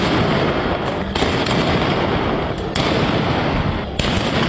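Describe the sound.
Police gunfire shot into the air at a protest in the Clifton area of Karachi, heard as a loud, dense crackle of sharp reports that runs almost without pause, broken only by a few brief gaps.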